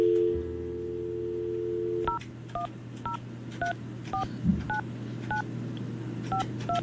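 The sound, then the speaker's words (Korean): A telephone number being dialed: a steady dial tone, then a series of short, evenly spaced DTMF keypad beeps at varying pitches. “그래서 이 시간에 이분이 전화를 받으실지 모르겠지만 제가 한번 전화 한번 해볼게요.”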